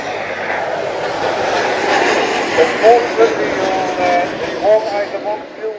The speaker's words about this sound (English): This is the Vulcan going up there.